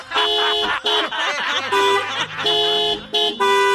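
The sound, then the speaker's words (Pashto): Car horn honking impatiently: a series of loud, sustained blasts with short breaks between them. “یا لکه تا څه پر هارن باندې ګوته ایښې ده؟ لږ صبر نه شه کولی؟”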